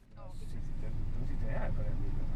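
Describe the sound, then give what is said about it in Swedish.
A small silver-grey car's engine hums as it drives off, a low steady rumble that swells over the first half-second and then holds even, with faint voice-like sounds over it. “Men först ska vi ut ur stan till motorns brummande.”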